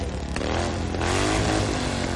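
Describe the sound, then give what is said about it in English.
Motorcycle engines rev with a dense, throaty roar that stays loud and steady throughout, the tone thickening a little about halfway through, with no talking. “Bikers are revved up.”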